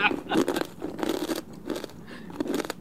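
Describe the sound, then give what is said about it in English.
Crisp crunching and wet chewing as someone eats pad thai with bean sprouts in an ASMR eating recording, with several sharp bites in uneven bursts, moderately loud. “We're going to listen to this chick eating pad thai for 2.5 minutes.”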